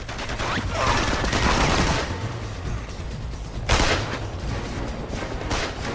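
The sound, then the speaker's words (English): Gunfire from pursuers shooting at a fleeing man during a rooftop chase: dense, rapid bursts of shots crackle continuously, swelling loudest early on, with a sharp blast near the middle. “as his pursuers open fire”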